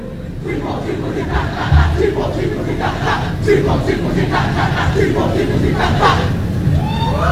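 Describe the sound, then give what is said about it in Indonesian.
A team yel-yel chant shouted in unison by a delegation from Jembrana regency on an open-air stage, loud and continuous with rhythmic voiced pulses from many people over constant crowd noise. “Nggih, luar biasa sekali yel-yelnya disambut dengan tangan yang meriah saking penonton.”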